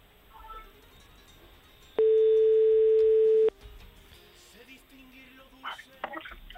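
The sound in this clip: A telephone ringing tone while a radio host calls a listener: one long, steady, loud mid-pitched beep of about a second and a half, rising well above low background noise.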